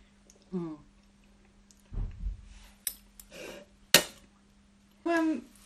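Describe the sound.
Someone eats homemade bread sauce made with bread, water and cinnamon. There are moist chewing and mouth clicks in short bursts, with brief voiced murmurs, over a faint steady hum.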